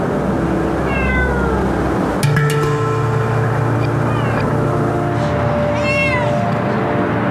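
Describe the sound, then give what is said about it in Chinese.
A wary cat meowing as people try to approach it without scaring it, with a few faint, high meows spread over a steady, low rumbling background noise. “现在我是要试探一下猫咪， 不能吓到它”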